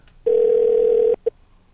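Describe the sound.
A telephone dial tone sounds after a call is hung up: one loud, steady tone lasting about a second, then a single short beep.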